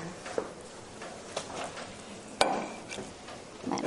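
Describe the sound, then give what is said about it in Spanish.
A ceramic knife cuts on a ceramic surface, giving a few faint, sharp clicks and taps spaced out over quiet background noise, with one slightly stronger knock in the middle. “lo que voy a hacer yo ahora no es muy correcto, que es cortar cerámica con cerámica, porque eso lo que hace es perder el filo.”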